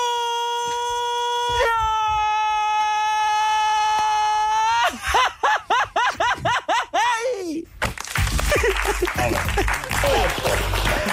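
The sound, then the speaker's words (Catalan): A farmers' shout for calling from one field to another, voiced by a person: a loud, steady, high cry held for about five seconds, then a quick run of warbling yelps, followed by a burst of applause. “O uc és un crit dels pagesos per comunicar-se d'un camp a un altre.”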